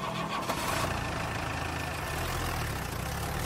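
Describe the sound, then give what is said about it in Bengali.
A car engine running as the car drives off through Kolkata. It makes a continuous low drone with a broad wash of road noise that stays at a steady, moderate level, with no voices over it. “গাড়ি এগিয়ে চলল গড়িয়াহাটের দিকে।”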